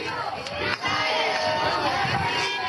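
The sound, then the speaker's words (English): Supporters cheering and shouting outside the Supreme Court as a woman walks out with her legal team, a dense, continuous roar of many voices with a brief dip early on. “In April, supporters cheered as Cecilia Wong walked out of the Supreme Court with her legal team.”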